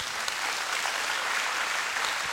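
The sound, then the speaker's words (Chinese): Church audience applause, a soft, even wash of many hands clapping that holds steady at a fairly low level throughout. “我们把掌声归给神好吗？”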